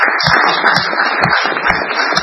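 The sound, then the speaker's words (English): Applause from the people gathered at a meeting, a dense, steady wash of clapping that stays loud and even through the short stretch with no voices over it. “I'd like everybody to give them a big round of applause for that.”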